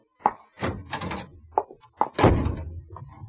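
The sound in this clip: A door slams shut and is locked: a short series of heavy thuds and clunks with no talk over them.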